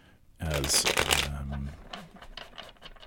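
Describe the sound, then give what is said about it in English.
Tarot cards shuffled, a double copy of the Handel Tarot, give one loud papery riffle lasting about a second, then softer scattered rustling and flicking. “Those are all now nicely shuffled, and I'm working with a double copy of the Handel Tarot by Rachel Pollack”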